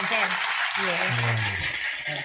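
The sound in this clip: Applause from a group honoring a woman for returning a large sum of money, a continuous patter of clapping with voices talking over it throughout.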